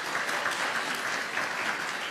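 A church audience applauds a guest who stands to be welcomed during a service. The clapping of many hands is continuous and fairly soft, with no talk over it.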